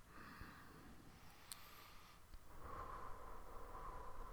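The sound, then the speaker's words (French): A slow, deep inhalation during a guided meditation, soft and airy, swelling into a steadier rush of breath in the second half, with no talking over it. “Pour clôturer cette séance, on va prendre une belle inspiration.”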